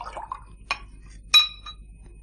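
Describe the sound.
A drink served into a glass in a radio drama: soft liquid sounds at first, then two clear glass clinks, the second louder and brighter with a short ringing tail.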